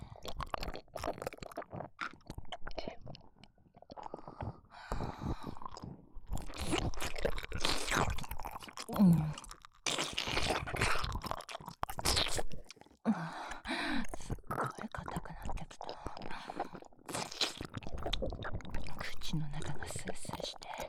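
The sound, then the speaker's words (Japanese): Frisk mints are crunched between the teeth, many crisp, brittle cracks and chewing sounds, close and fairly quiet, with a whispering voice over and between them. “このフリスク噛み砕いたら、もっと気持ちよくなっちゃうと思うんだ。”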